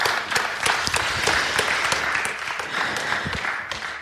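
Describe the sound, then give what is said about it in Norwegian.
Audience applause at a church gathering as a group leaves the stage. A full, continuous round of clapping with distinct individual claps running through it stays strong throughout and eases off slightly at the very end. “Skal vi ikke gi dem her I gjengen en skikkelig applaus når de går ned, så skal vi avslutte.”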